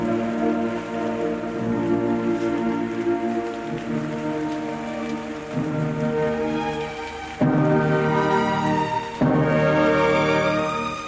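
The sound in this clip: Steady rain falls over an eighteenth-century burial scene where quicklime is shovelled onto bodies. It is a dense, continuous wash that grows noticeably louder in two steps over about eleven seconds.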